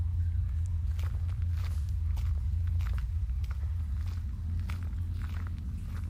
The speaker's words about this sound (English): Hey, Ash, can you walk? Follow the path around the corner there, and I'll be right with you.